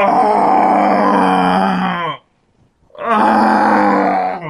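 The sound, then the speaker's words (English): A person groans in two long, deep, drawn-out bursts separated by a short silence, a loud, rough, monster-like moaning with a strained voiced tone. “Why don't you groan some more? Are you done? You sound like a monster.”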